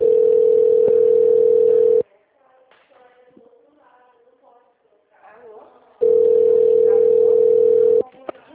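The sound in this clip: Telephone ringback tone as a call connects: two long, loud, steady tones of about two seconds each, separated by a pause of roughly four seconds that holds only faint background sound.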